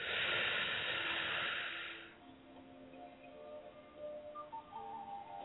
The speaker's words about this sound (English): you ready to take that deep breath in? Okay, let's go. Breathe in.